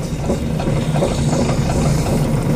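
A potter's wheel spins steadily while a lump of red clay is shaped by hand into a mug, giving a continuous, even, low mechanical rumble with no voices.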